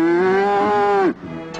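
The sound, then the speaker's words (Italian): A cow gives one long, steady mid-pitched moo that bends downward and cuts off abruptly, followed by faint low background noise. “E questo mucchio è la mucca pazzarella. Questa bella mucca non si fa mungere.”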